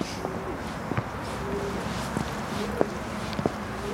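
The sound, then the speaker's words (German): Footsteps climb old sandstone stairs toward a castle wall. Light, irregular taps and scuffs sit under a steady, loud background roar that continues the whole time. “Von hier aus steigen wir alte Treppenstufen aus Sandstein hinauf.”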